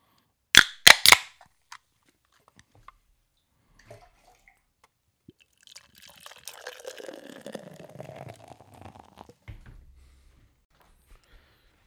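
A rye IPA being opened and poured: a few sharp, bright snaps and hiss as the can or bottle is cracked, then after a quiet gap a steady fizzing, gurgling pour lasting several seconds before it stops.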